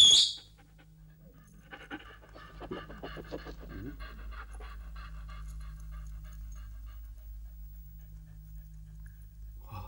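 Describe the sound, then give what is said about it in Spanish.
Dogs pant in quick, rhythmic breaths, soft and steady throughout, over a low constant hum. “Los perros no muerden si no se lo ordenamos mi hija o yo. Y solo comen su comida.”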